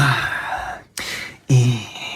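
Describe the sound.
A voice imitates the impatient heavy breathing of someone waiting behind in a supermarket checkout queue. It gives three loud, breathy huffs and sighs separated by brief pauses.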